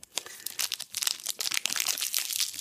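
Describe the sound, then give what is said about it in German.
Crinkling and tearing of the wrapper on a Merci dark chocolate bar being unwrapped: a dense, continuous run of sharp crackles and rustles that grows busier toward the end, with no voices. “Moment, ich muss erst auspacken.”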